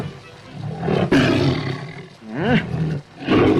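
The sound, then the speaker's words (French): Big cats in a circus menagerie roar in a few deep, rumbling bursts, loud and throaty, with growling swells that rise and subside between them. “Et maintenant, passons à la ménagerie proprement dite. Ah, vous entendez quels sont les voisins que nous avons à côté de nous.”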